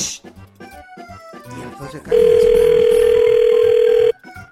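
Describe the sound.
A loud, steady telephone call tone holds for about two seconds before a recorded prank message. Brief talking and background sounds come just before it, and sound resumes right after the tone stops.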